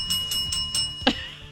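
A hand bell rings in a few quick, bright, high-pitched strokes with a steady ringing tone between them, ending in one sharper, louder strike.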